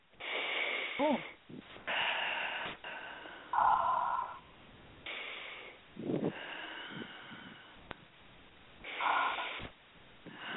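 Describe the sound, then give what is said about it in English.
A person takes several slow, deep, audibly wheezy breaths, with long inhales and exhales in an uneven rhythm and short pauses between them. “You need to, first of all, take three deep breaths.”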